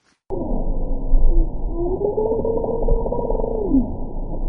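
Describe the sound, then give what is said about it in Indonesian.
Bowhead whale calls recorded underwater in Arctic waters: steady, low, tonal moans with wavering and sweeping contours run continuously for about four seconds over a dense rumbling background, with no voices. “Ini adalah suara ikan paus kepala busur di dalam laut.”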